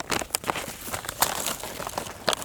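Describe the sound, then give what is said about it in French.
Crinkling paper rustle of a folded French IGN topographic hiking map being opened out, a run of sharp, crisp crackles and soft flaps in quick irregular bursts at moderate loudness. “Je déplie la carte IGN.”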